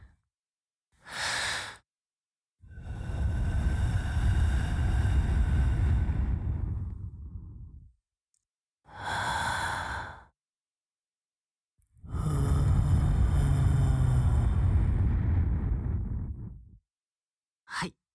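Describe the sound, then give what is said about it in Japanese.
Breath blown into the listener's right ear in an ASMR setting: short airy puffs alternate with long, sustained exhalations, separated by silence, with no voice heard. “あ、ちょっと待って。最後に息吹きかけるから。 動かないでね。”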